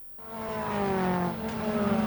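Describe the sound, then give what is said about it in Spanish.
Car engines roar at a night autocross race, swelling from near quiet into a loud, sustained droning roar with a steady pitched hum that holds to the end. “Rugen los motores en Talavera. Segundo autocross nocturno en el Cerro Negro”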